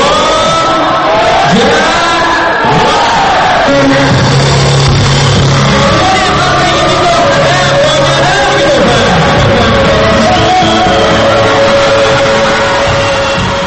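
A concert audience in a hall in Bishkek cheers and applauds as a pop singer comes on stage, a loud, sustained roar of clapping with shouts and whoops running throughout.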